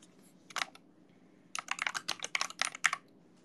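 Fingers type on a computer keyboard: a short cluster of soft clicks, a pause, then a quicker run of many light, uneven keystrokes. The typing is faint and heard alone.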